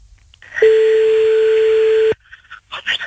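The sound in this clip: A telephone tone sounds as a call is placed: one loud, steady, single-pitched tone lasts about a second and a half, then cuts off. A few brief, quieter sounds follow.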